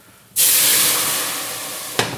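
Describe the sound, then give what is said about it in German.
Sizzling hiss of a litre of sauce hitting a hot pan: a loud, abrupt burst that holds as a steady, bright hiss and slowly fades, with a brief extra flare of sizzle near the end. “Und dann kommt nämlich gleich dieser Liter Soße. Der kommt jetzt hier gleich dazu. Und schon Hitze.”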